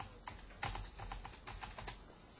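Computer keyboard typing as a private chat message is entered in a graphical chat program: many quick, light keystrokes in an uneven run, fairly quiet and with no voices.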